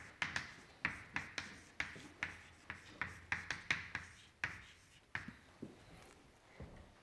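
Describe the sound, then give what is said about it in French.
Handwriting on a board during a physics lecture: many quick, scratchy strokes and taps in an uneven rhythm, fairly faint, with no talking over them. “Est-ce que j'écris assez gros pour les gens du fond”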